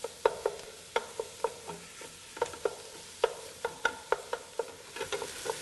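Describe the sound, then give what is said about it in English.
Ground pork browns in a pan for a sausage and white bean soup while a utensil breaks it up. Many sharp scrapes and taps come in an uneven rhythm over a soft, steady sizzle. “I'm gonna add my ground pork right now. And I break it up and get this cooked down until I get a lot of color.”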